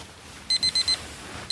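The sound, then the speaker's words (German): A smartphone alarm goes off in the morning: four quick high-pitched beeps in a row, a short pause, then another beep begins, over a faint background hiss. “Am Morgen weckt mich mein Smartphone.”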